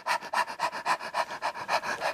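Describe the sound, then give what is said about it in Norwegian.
Rapid, rhythmic panting breaths during childbirth, short dog-like puffs as the baby crowns. The quick, breathy bursts come in an even, steady series at similar loudness, and no one talks. “Og hundepust.”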